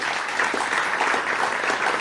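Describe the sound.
Steady applause from a festival audience at Montebello welcoming a violinist onto the stage, a dense, even patter of many hands holding at a constant level throughout.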